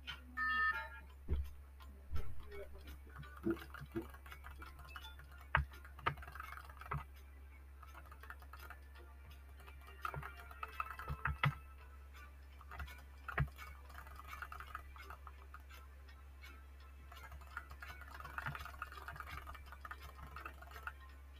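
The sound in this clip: Many faint, irregular clicks from play in an online game tap out in scattered bursts over a steady low hum.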